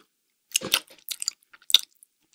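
Crunchy chewing of cookies: a few crisp, irregular bites and crunches with short quiet gaps between them, alone without talk.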